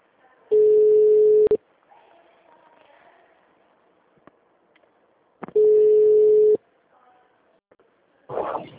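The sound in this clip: Telephone ringback tone while a call is placed: two steady, mid-pitched beeps about a second long, several seconds apart, with faint background noise between them. A voice begins at the end.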